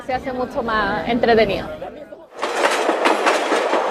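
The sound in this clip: A vintage 1920s train running through Chile's wine regions of O'Higgins and Maule: voices are heard first, then a loud, steady clattering rumble of the carriages takes over for the rest.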